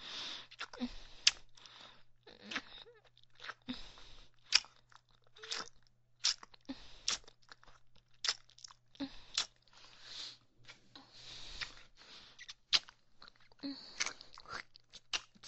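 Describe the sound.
Glutinous rice cake is chewed in many small, crisp, sticky crunches and clicks in an irregular rhythm, faint overall, over a steady low hum.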